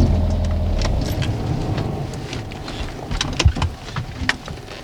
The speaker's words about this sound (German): Okay, Moment. Ich fahre rechts ran.